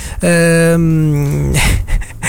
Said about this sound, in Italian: E poi trovano Ivan il Terribile, il cane, no? Che li costringe a salire su un albero.